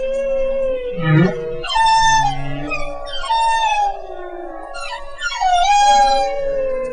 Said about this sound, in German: auch bei Walen sind neue Lieder immer sehr gefragt, besonders bei einer bestimmten Art, den Buckelwalen. Deren Gesang hört sich ungefähr so an.